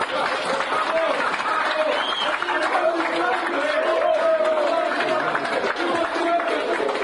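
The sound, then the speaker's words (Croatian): Applause from the audience at a high school graduation ceremony as a top student receives an award: dense, steady clapping that lasts the whole time, with crowd voices and chatter mixed in. “a vi je nagradite još jednom aplauzom”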